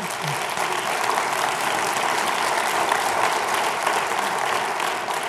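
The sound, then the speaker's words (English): Applause from an audience during a talk about marriage: a thick, continuous patter of many hands clapping, loud and uniform from start to finish. “I must be doing pretty good today, because that's two rounds of applause.”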